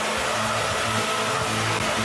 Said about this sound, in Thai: ก็คุณเอาทั้งลมเป่ามันแล้วก็ยังลูบขนมันอีกด้วย